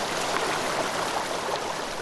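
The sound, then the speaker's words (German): Laurel Creek, a mountain stream with small waterfalls above Townsend, gives a steady, even rush of water with soft gurgling and no voices. “Der Weg führt uns entlang dem Laurel Creek. Der Bach windet sich wildromantisch mal links, mal rechts vom Weg und lädt an malerischen Wasserfällen zum Verweilen ein.”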